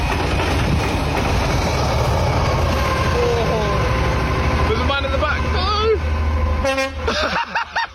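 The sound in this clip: Horn of an engineering train on a railway, a few loud toots rising over heavy, continuous rail rumble, with voices talking throughout.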